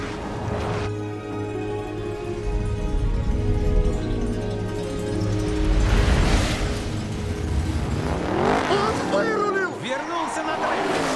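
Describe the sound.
Race cars roar past one another while overtaking on a track, a dense engine din with whooshing passes that swell around the middle and near the end, heard beneath continuous excited talk.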